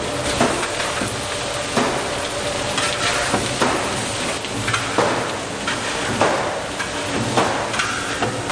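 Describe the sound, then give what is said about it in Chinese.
Doubanjiang bean paste fries in a wok with a loud, continuous sizzle, broken at regular intervals by the scrape and clatter of stirring. “豆瓣酱烤香出色之后，加入适量的老抽，给入一定的底味。”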